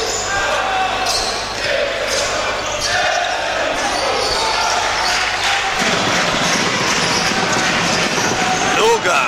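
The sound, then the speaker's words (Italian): A basketball is dribbled again and again during a professional game involving Milano, its bounces arriving as a quick, regular run of thumps while a man talks over them throughout. “Per il palleggio insistito di Strelnitz”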